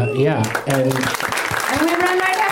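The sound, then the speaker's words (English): Comedy show audience applause, uneven bursts of clapping with a voice talking loudly over it. “Wow. That's what a fucking shitty round of applause, you pieces of shit.”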